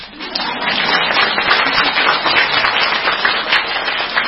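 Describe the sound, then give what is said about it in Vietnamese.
A crowd at a Buddhist teaching talk breaks into applause: thick, continuous clapping from many people, loud and even throughout with small swells, and no speech on top. “Vỗ tay đi.”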